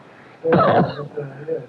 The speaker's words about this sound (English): I'm sorry, I clipped your microphone while I coughed into mine.